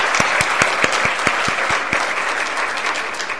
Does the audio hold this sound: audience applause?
yes